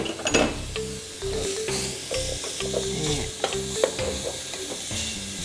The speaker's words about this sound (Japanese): 肉の中に生姜を入れて鍋でよく炒めます。